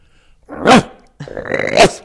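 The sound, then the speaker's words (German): Voice imitating the harsh barking alarm call of a water deer: two rough, bark-like bursts from a person's throat, the first short and the second longer and raspier, with a brief pause between them. “Der Schrecklaut des Wasserrehes ist ein harsches Bellen. Kriegen wir das hin?”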